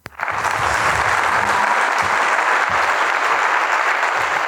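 Loud applause after a prank phone call, starting abruptly and holding as a thick, steady roar of clapping with no talk over it.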